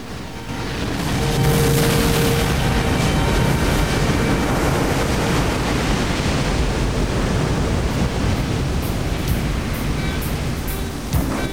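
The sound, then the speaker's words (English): Crashing surf from a huge ocean wave breaking into white water makes a loud, dense rushing roar that swells up and then holds steady for the whole stretch. “Halfway down, the wave closes down on Bodhi, enveloping him inside it. There's an explosion of white water, and he's gone.”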